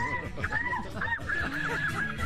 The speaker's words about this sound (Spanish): Y si salimos a la terraza, es la gaviota asesina. La terraza no es nuestra, es de ella. Bienvenida a la gaviota.